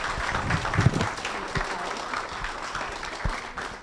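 A church audience applauds to welcome a guest pastor, with steady, dense clapping from many hands that carries on through the whole few seconds.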